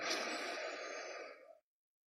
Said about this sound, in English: let's take 3 deep breaths together, inhaling